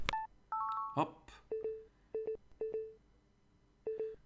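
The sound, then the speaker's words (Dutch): Short electronic beeps from a Plextalk Linio recorder as its round centre button is pressed to stop a recording: a quiet series of brief mid-pitched tones, several coming in close pairs, separated by short silences. “We drukken op de ronde knop in het midden om te stoppen.”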